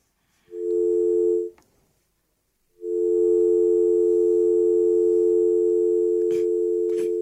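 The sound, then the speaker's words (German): A telephone tone for an incoming call: a loud, steady pure hum lasts about a second, breaks off, then returns and holds for more than four seconds, with no voices. “Oh, ich sehe gerade, wir bekommen einen Anruf.”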